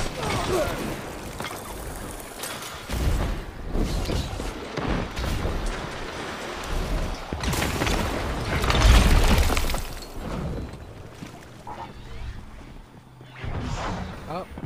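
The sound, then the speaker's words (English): Wither Horde grenade launcher hits in Destiny 2 Crucible play: a few booming, shattering explosive bursts rise out of dense game noise while a voice talks over the action. “He got me with a Wither Horde. That's bad. Okay. This guy literally got me with the Wither Horde.”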